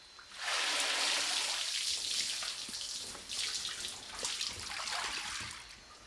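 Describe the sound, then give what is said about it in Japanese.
Water splashing and sloshing as spiral-rolled fabric is soaked in hot water before traditional Kyoto black dyeing; a continuous, fairly soft wash of running water lasting several seconds. “まず綿子が貼られた生地を螺旋状に巻きお湯に5分ほどつけておきます”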